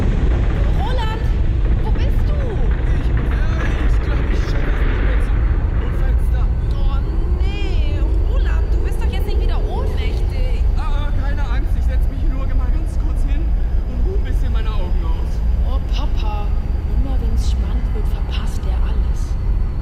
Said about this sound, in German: Alien-Alarm! Oh, nicht schon wieder. Mama, Papa, ich glaube, das sollt ihr euch dringend ansehen. Hier landet gerade wirklich was.